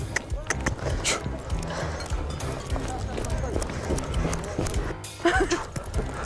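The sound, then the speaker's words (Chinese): Horses running with riders on their backs: fast, rhythmic hoofbeats that carry on throughout, with people talking over them. “大家很快就跟自己的马儿熟悉起来，能够自如奔跑了”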